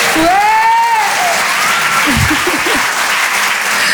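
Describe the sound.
Loud, steady audience applause and cheering fills the whole stretch, with a high whooping cheer near the start rising above the dense clapping.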